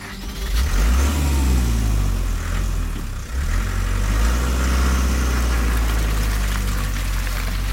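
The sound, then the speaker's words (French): A car engine runs loud and steady, its low harmonic drone swelling and easing slightly in pitch as it revs, with no voices over it. “il regagne sa voiture et disparaît aussitôt”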